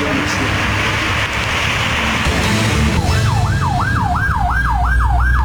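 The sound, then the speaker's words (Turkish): Fire engine siren in traffic in Diyarbakır: loud, steady noise for about three seconds, then a rapid, repeating rise-and-fall yelp that continues to the end. “Diyarbakır'da sürücüler itfaiye aracına yol vermek için fermuar sistemine geçti.”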